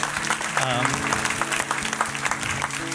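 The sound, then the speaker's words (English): A church audience claps in tribute to a pastor couple marking their 25th anniversary, producing steady, full applause that carries on under someone speaking. “you can go ahead and do that little clap thing.”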